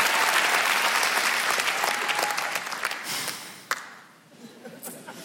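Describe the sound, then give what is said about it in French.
Loud audience applause welcoming a performer at a comedy show in Montreux: dense, sustained clapping that thins out after about four seconds. “Préparez-vous maintenant à accueillir notre prochain artiste et faites du bruit où que vous soyez pour Charlotte Boisselier.”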